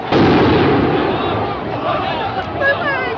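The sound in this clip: Explosives fired by police at protesters near the White House make a dense, sustained roar of blasts and crackling that stays loud and rough for the whole stretch, with no clean pause between bursts.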